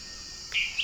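A dwarf tyrant-manakin sings a thin, high, buzzy note, held briefly and then followed by a shorter second note, against a faint hiss.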